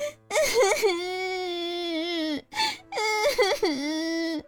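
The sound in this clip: A young child crying and sobbing in long, trembling, high-pitched wails broken by shaky catches of breath. Two drawn-out cries are separated by a brief gap.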